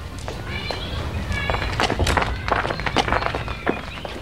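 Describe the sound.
Footsteps of people walking away, a steady run of irregular, crunchy steps that continue throughout at moderate loudness.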